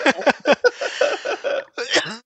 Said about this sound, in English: I had to mute myself because I coughed after laughing so much at that.